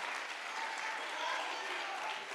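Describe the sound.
Church audience applauding during a bilingual Spanish-English sermon, a dense, steady wash of clapping that holds at an even, loud level for the whole two and a half seconds.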